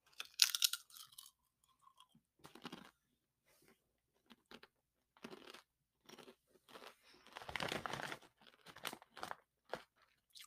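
Crunching of spicy Popcorners chips being eaten: a series of crisp, irregular bites and chews separated by short quiet gaps, with no talking.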